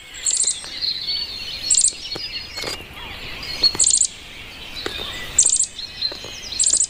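Bluebird chicks calling: short, very high-pitched chirps and thin peeps repeat in clusters roughly every two seconds, moderately loud, with no voices.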